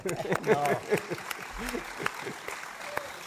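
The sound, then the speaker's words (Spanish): Scattered audience applause, fairly faint claps rising under a talking voice. “Ahora sí que merece, yo creo, el aplauso”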